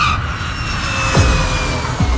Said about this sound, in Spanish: Un avión Airbus A320 operado por la aerolínea de bajo coste húngara Wizz Air aterrizaba en el aeropuerto internacional Al Maktoum de Dubái, procedente de Budapest.